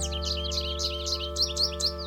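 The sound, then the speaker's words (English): Birds twittering in quick, evenly spaced bursts of bright, high chirps, about eight in a row, over steady sustained musical tones. “Birds hurry in harried, twittering conferences, and I think reckless thoughts.”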